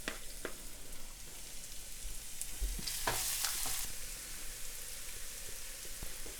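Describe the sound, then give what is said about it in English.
Chopped garlic and ginger sizzling in hot oil: a loud, steady crackling hiss that runs throughout, with a few brief stirring knocks near the middle. “just let this sizzle a bit. And I'm going to pour in our ginger and garlic. So into the oil, I'm tossing in some of our chopped garlic and ginger.”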